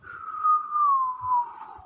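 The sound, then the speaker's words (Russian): A quiet whistle holds a single clear tone and glides slowly a little lower in pitch over about two seconds, heard alone. “Послышался тихий свист.”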